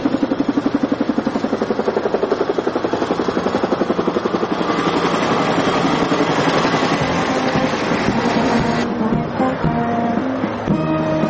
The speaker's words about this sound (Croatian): Avion Alitalia stigao je tačno u 9 sati.